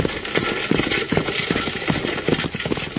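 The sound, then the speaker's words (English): Runaway horses galloping on a mountain trail, their hooves clip-clopping in a rapid, continuous pattern of many loud, dense beats without pause. “These horses are running away!”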